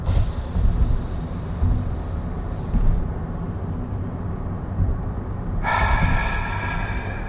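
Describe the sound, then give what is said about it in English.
One deep breath drawn in through the nose and let out through the mouth: a long, steady, breathy rush of air that fills the whole clip, with no voices. “three deep breaths. In through the nose, out through the mouth.”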